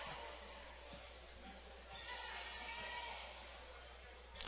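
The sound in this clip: A basketball is dribbled during a game, a steady series of sharp, faint bounces at an even rhythm under a voice talking.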